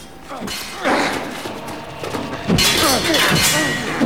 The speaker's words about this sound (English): blocks his blow with his own sword, and they clash.